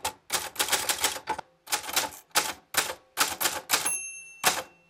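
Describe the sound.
An old mechanical typewriter that belonged to a great-grandfather clacks in rapid runs of keystrokes separated by short pauses. A single bright bell-like ring sounds near the end, and no one talks.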